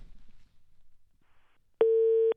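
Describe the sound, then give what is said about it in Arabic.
Telephone busy signal: after a stretch of low, faint rumble, one loud, steady, even tone sounds near the end of the line and stops abruptly. “الهاتف دائما مشغول.”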